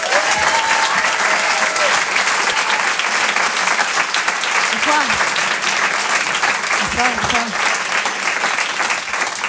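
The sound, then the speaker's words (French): A comedy club audience gives a sustained ovation for a comedian. The dense, loud applause holds steady throughout, and a few brief cheers and whoops rise over the clapping. “Je vous demande une ovation s'il vous plaît pour Elisabeth Buffet.”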